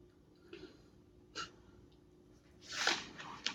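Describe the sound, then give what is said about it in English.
A dog snorts and sneezes in a few short, breathy bursts, faint at first and sharper toward the end, each one quick and airy against a quiet background. “Excuse the dog, y'all.”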